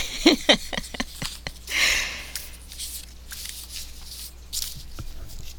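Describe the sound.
Playing cards that are hard to shuffle are mixed by hand: a quick run of crisp papery clicks, then a short riffling burst, followed by scattered softer flicks and taps.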